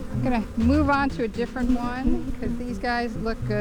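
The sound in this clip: Bees buzzing at a backyard beehive: a steady, low droning hum, with a person talking over it throughout.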